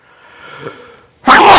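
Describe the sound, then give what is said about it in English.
A person sneezes once. A faint breathy lead-in gives way to a loud, sharp burst of sneeze. “Excuse me here. Trying to keep from sneezing.”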